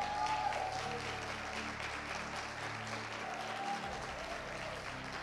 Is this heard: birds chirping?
no